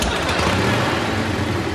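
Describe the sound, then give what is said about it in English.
A motorcycle engine runs steadily throughout, a continuous, fairly loud low rumble with a broad roar over it and no talk. “Hey, could you shut the motorcycle off? I'm in the middle of an interview here.”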